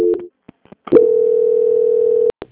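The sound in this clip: Telephone tone during a call transfer: a few short clicks and blips, then one steady mid-pitched tone held for over a second, cut off by two sharp clicks.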